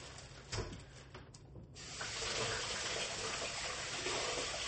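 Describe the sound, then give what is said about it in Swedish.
Paws being rinsed under a running tap: a steady, hissing rush of water with faint rubbing, growing louder and fuller partway through and then flowing evenly to the end. “Och naturligtvis skölja tassarna innan vi fortsätter.”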